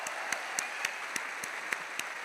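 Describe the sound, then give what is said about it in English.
Faint audience applause from a crowd at an afternoon gathering, with sharp individual claps recurring at a steady beat over a soft bed of clapping. “We want to give you a shout out and applaud you for your efforts.”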